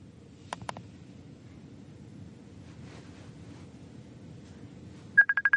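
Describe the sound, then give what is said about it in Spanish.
A Facebook notification tone on a phone: a quick burst of short, bright, identical beeps at the very end, after two faint clicks earlier, all over a steady low background hiss. “entra una notificación de Facebook.”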